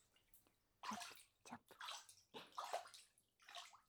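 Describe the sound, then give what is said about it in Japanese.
Warm bathtub water poured and sloshing as it is scooped from the tub, several short splashing bursts with gaps between them, faint and without voices. “湯船のお湯かけるよ。 チャップチャップ、”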